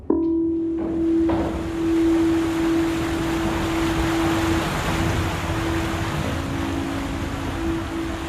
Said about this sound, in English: And we're on the ferry, riding the swell from Zamboanga City on the southwestern tip of